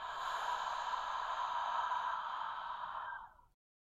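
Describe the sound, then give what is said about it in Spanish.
A long, steady exhale through the mouth during a guided breathing exercise. The soft, breathy hiss holds evenly for about three and a half seconds, then stops abruptly. “Exhala por la boca sintiendo cómo tu mano recibe este calor.”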